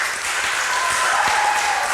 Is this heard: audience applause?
yes